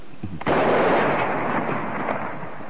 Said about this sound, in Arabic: مدفع الإرشاد اضرب.